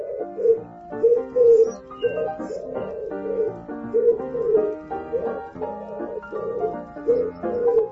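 Pigeons cooing on a roof: many soft, low, throaty coos in repeating short phrases, rising and falling in loudness in a steady rhythm.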